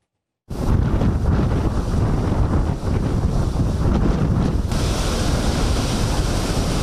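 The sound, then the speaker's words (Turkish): Strong wind blowing at about 70 km/h over huge sea waves in Istanbul during stormy, rainy weather, a loud, unbroken roar of surf and gusts buffeting the microphone, starting abruptly and staying intense throughout. “Saatte 70 kilometre hızla esen rüzgarla birlikte denizde dev dalgalar oluştu.”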